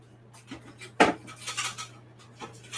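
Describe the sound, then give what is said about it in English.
Kitchen utensils clink and scrape against dishes as leftover egg is piled into an air fryer. One sharp clatter stands out among a few softer knocks and scrapes, all fairly quiet. “I'm just gonna put all of the rest of this into my air fryer and just like in a big pile.”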